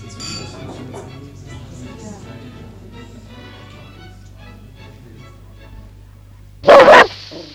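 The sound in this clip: Dog barking: a short, loud burst of barking rings out near the end, after a long stretch of people talking over a low, steady hum.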